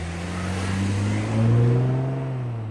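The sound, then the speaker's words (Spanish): A car engine runs with a steady, low, rumbling drone that swells louder and slightly higher in pitch midway before easing back, with no voices. “Si uno escucha, por ejemplo, el sonido de un motor de un auto,”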